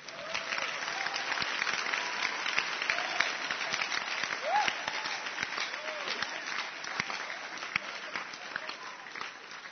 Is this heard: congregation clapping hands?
yes